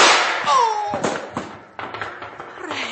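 Gunshots ring out in a shootout as a few sharp, loud cracks spaced unevenly, with a falling whine early on and a thinner, fading tail between the bangs.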